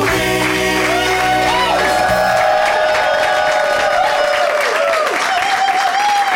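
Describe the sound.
An audience claps and cheers enthusiastically on a Thursday night at a live show: loud, sustained clapping with whoops and shouts throughout.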